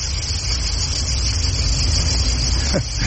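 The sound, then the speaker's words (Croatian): Crickets chirp on a hot summer day on the way to a parking lot. The chorus is a steady, continuous high buzz over a low rumble. “čujete zrikavce, oni pjevaju svoju ljetnju serenadu.”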